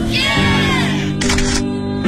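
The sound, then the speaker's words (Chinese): A camera shutter clicks as a graduation photo is taken, a brief sharp snap over steady background music. “还记得毕业时按下快门瞬间的永恒。 来来来，看镜头，一二三。”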